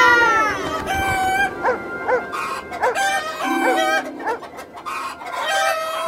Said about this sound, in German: Dort drüben ist eine Hühnerfarm.